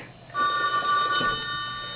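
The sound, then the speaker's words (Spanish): A telephone ringing with steady, bright electronic tones that start about a third of a second in and hold fairly loud to the end, with no talk. “Ay, aquí hay que responder. A ver, vamos a contestar la llamada.”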